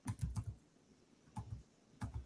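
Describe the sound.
Quick computer keyboard typing as a question is entered into a chatbot, in three short clusters of keystrokes: a rapid run first, then two brief pairs, faint and with no talk.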